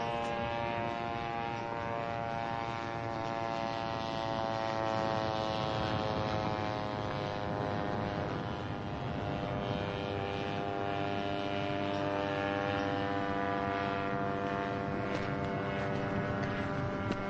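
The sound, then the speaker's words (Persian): Steady droning engine of a remote-controlled model airplane flying overhead, a dense, even hum rich in layered harmonic tones that stays constant in loudness throughout, with no voices. “هواپیما در هوا پرواز میکنه”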